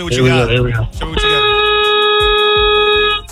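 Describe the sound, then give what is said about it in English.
A tow truck's air horn sounds as one loud, steady-pitched blast lasting about two seconds. A short wavering tonal sound comes just before it. “I'm a tow truck driver, and I drive a big truck, and I have an air horn.”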